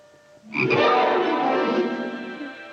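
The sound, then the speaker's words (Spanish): A frog croaks in a loud, dense, rasping burst that starts after a short quiet lead-in and continues steadily to the end. “Una rana, qué linda. Hola, hermana rana, ¿qué tal estás?”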